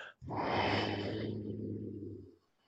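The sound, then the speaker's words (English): A single long, deep exhale during a crescent lunge twist in a yoga session. The breath rushes out loud and breathy for about two seconds, then trails off into quiet. “Crescent lunge twist on an in-breath. Huge breath out.”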